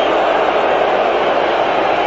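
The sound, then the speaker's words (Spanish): A football stadium crowd whistling and booing a referee after a pass, heard as a loud, unbroken wall of crowd noise that holds steady throughout without any clear pauses. “En la dirección del pase y silbatina del público, abucheo para Oliver.”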